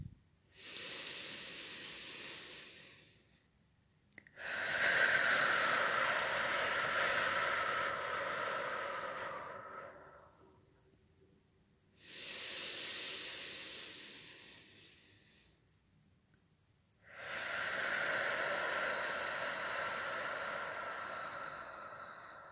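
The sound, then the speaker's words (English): Two slow, deep centering breaths, each a soft airy inhale followed by a longer, fuller exhale, with quiet pauses between them and no talking. “Let's start this off the way we start off every episode, with a couple of deep centering breaths.”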